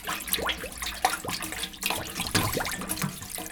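A young girl splashing in river water: irregular sloshing, swishing and bubbling bursts that stay fairly soft and continuous, with no talking.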